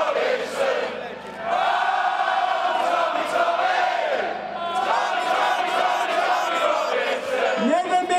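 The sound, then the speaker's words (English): Boisterous crowd outside the Old Bailey Central Criminal Court in London, loud massed shouting and chanting in unison, sustained with a brief dip before rising again. “I am standing amidst a boisterous crowd outside the Old Bailey Central Criminal Courts in Central London. I'd say there's about 500 people on the pro-Tommy side”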